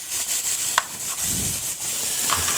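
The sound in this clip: Nutmeg being grated by hand, a soft, steady scraping rasp with faint irregular scratches and no talk.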